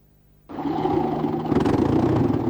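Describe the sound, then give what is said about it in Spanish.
An engine runs rough with a misfiring lower spark plug. It kicks in abruptly and holds a loud, steady roar that grows slightly heavier and choppier partway through. “Ese motor se te va a apagar otra vez, muchacho. Es la bujía de abajo que está chispeando mal. Lo estoy oyendo desde aquí.”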